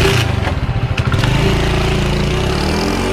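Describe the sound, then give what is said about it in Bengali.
Motorcycle engine running loudly during a ride on a bike, a low steady drone with a throbbing, pulsing quality for the first second and a half, then a smoother continuous hum with no talk. “সেই মতো ওদের একজন বাইকে করে আমাকে পৌঁছে দিয়ে গেছে হাবিবপুর।”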